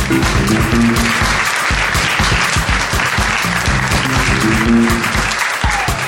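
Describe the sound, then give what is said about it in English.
A live audience at Abbey Road Studio applauds and whoops as two hosts are welcomed to the stage: loud, dense, continuous clapping with cheering mixed in throughout. “Good whooping, good whooping.”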